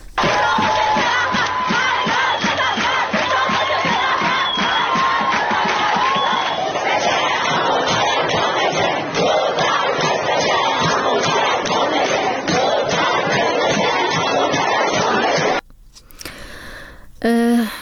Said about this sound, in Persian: صدای دانشجویان دختر الزهرا را هم بشنوید، چرا که دانشگاه الزهرا فقط دانشجوی دختر میپذیره.